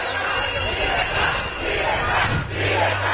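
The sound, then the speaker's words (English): Opposition supporters chant "freedom" on the streets of Caracas: a loud crowd roars the word in repeated rhythmic surges, with dense voices throughout. “Freedom, freedom, freedom are the chants from opposition supporters on the streets of Caracas.”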